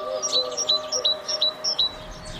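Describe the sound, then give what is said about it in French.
A great tit sings in the city, repeating high, bright two-note phrases in a steady rhythm over a faint continuous background hum. “Parus major fait partie de ces espèces qui se plaisent à la ville.”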